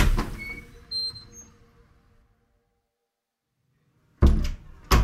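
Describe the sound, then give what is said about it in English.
Door sound as someone opens it and steps into a bar: an opening clunk with a ringing decay and a smaller knock, then quiet, then two sharp, loud thuds close together at the end. “I put my hand on the doorknob, turned it, and stepped into the bar.”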